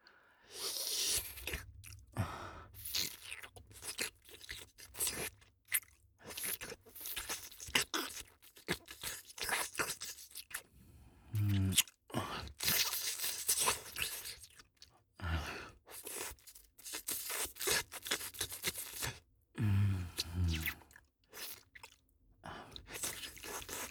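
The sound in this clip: Wet licking sounds, many irregular slurping and smacking mouth noises with soft squishy textures, rising and falling in loudness over a long stretch, with no speech.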